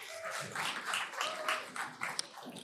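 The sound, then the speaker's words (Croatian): Dense, steady audience applause at a Croatian project-presentation event, given in honour of the Croatian Chamber of Economy, holding an even level throughout with no clear break. “Ja veliki aplauz za Hrvatsku gospodarsku komoru.”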